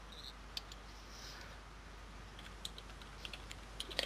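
Faint computer keyboard typing, irregular light key clicks scattered over a steady low hum, growing slightly busier toward the end, with no talk.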